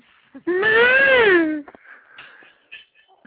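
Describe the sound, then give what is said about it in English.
A person lets out a high-pitched vocal squeal: one sustained, wavering cry of about a second that rises slightly and then falls. Faint scattered noises follow in near silence. “Give us a high-pitched squeal again.”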